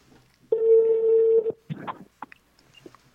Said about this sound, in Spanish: a ver si me contesta este cuate. Ya está sonando.